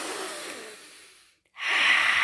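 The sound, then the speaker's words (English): A deep breath during breathwork practice: a long, airy breath trails off into a brief silence, then a loud, hissing inhalation swells and holds to the end. “breathe that air, baby. We got to breathe it around, breathing in deep, anchoring in.”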